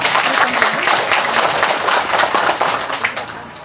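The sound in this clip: Audience applause: loud, dense crackling claps from many hands, sustained evenly throughout without a break.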